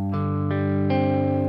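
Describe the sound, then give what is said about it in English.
Electric guitar in drop D tuning, one finger barred across the fifth fret, plays its four lowest strings one after another. The four notes enter in turn and ring on together as a sustained, slightly distorted chord. “You're just laying your finger across the fretboard on the fifth fret and playing the lowest four strings,”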